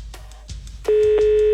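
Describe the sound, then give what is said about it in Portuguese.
Ringback tone of an outgoing telephone call: a few faint clicks, then a steady, loud single tone that starts partway through and holds unbroken to the end. “Primeiro toque. Segundo toque.”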